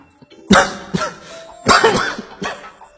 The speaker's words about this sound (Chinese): 说到这里他有些激动，按着胸膛咳了两声，脸色再次转白三分。